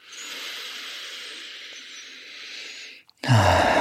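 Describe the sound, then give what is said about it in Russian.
A deep breath drawn in through the nose: a long, steady, airy inhale lasting about three seconds. It tapers off into a brief silence before a louder sound starts abruptly. “сделаем вместе несколько чуть более глубоких вдохов через нос и выдохов через рот. Делаем вдох.”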